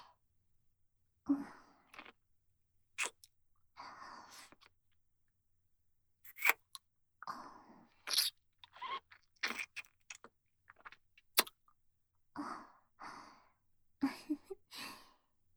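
Soft wet mouth sucking sounds from an intimate ASMR roleplay come in many short, irregular bursts, quiet and close, separated by brief silences with occasional breathy sighs.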